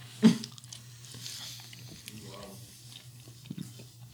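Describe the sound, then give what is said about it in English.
Chewing a bite of food makes soft, moist crunching and smacking mouth sounds, faint overall. A sharper bite lands near the start, and a voice briefly murmurs in the middle. “I'm going to try it. I'm going to eat another bite.”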